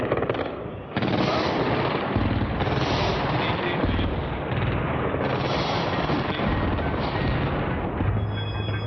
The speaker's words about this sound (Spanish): Bombarderos B-52 están actuando en la capital iraquí, como pueden comprobar. Este es el bombardeo masivo y abrumador que ya había anunciado el Pentágono semanas atrás.